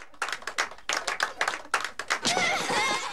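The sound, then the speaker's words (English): Applause from a group of people, starting as separate sharp claps and building into denser, continuous clapping toward the end. “As everyone applauds, Tom gazes at the woman in the photograph.”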